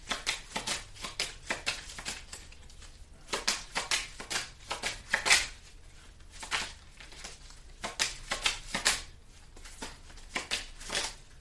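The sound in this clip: Tarot cards being shuffled and drawn, a long run of crisp, papery riffling bursts and flicks in an irregular rhythm, fairly faint, with no talking.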